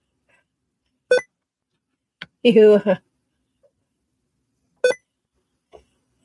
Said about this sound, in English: the computer's making a strange noise.